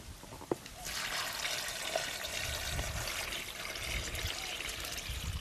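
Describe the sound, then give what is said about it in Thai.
Liquid mixture with molasses poured over pineapple until it is covered: a steady, continuous splashing trickle that runs without a break after a brief sharp tap at the start. “อันนี้เรียบร้อยแล้วเราก็จะเอาผสมลงไปในสับปะรดนะคะคราวนี้เราจะใส่ลงไปในนี้นะคะ”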